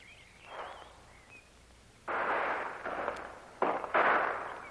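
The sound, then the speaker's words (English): Gunshots from a lone man firing from the top of a ridge: two loud, sharp bursts, each trailing into a long rushing noise, over a faint hissing background. “it's only one man. You can tell by the shots.”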